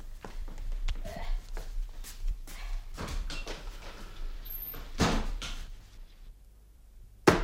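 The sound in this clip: A man bangs on a table with a series of irregular heavy thumps, the strongest around the middle, mixed with talking and shuffling noise.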